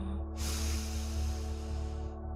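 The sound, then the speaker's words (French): A deep breath drawn in through the nose during a meditation, a soft steady rush of air lasting under two seconds over a low sustained humming drone. “Posez vos deux mains sur le buste, prenez une belle inspiration”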